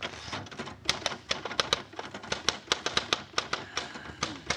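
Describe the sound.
Typewriter keys clack in a fast, steady run of many sharp strikes with slightly uneven spacing. The typing is clear and goes on for the whole stretch without talk.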